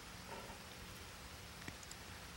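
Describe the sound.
Rain pattering outside a window, a soft, continuous hiss of falling drops with a few faint isolated taps, quiet and steady throughout.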